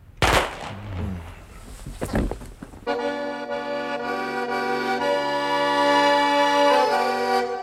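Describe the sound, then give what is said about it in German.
A rifle volley fired on command: a loud, sharp gunshot burst near the start, then a second blast a couple of seconds later, after which sustained music takes over. “Gewehr! Legt an! So, so. Feuer!”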